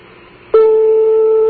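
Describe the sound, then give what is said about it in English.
Ringing tone of a telephone call to Tehran, Iran: one steady, mid-pitched tone of about a second that cuts in sharply after a faint low hum. “That's a phone ring in Iran, isn't it? Yes, it is. The phone is ringing in Tehran right now.”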